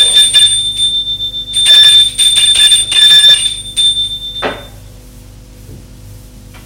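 Doorbell ringing at a front door, bright high metallic ringing in a few bursts over a low background hum, then dying away into quieter rumble.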